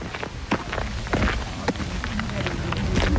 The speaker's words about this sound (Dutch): Ik loop even naar voren, naar Elias toe